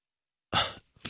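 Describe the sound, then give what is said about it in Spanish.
A stifled sneeze: one short, breathy burst that cuts off abruptly, after a moment of silence, with another faint sound starting just after. “Que iba a estornudar.”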